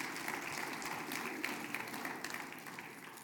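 Applause from a church audience after a prayer, with steady, even clapping that runs throughout and stays faint and soft.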